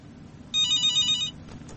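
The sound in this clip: A telephone rings for a listener's incoming call: one short burst of a bright, high electronic trill over a faint low background hum. No one speaks.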